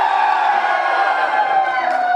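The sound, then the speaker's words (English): Students cheering at an election watch party in a college student commons at Belmont Abbey College, North Carolina: a loud, sustained chorus of whooping voices that holds steady across the whole clip. “The student commons was filled with cheering and some booing.”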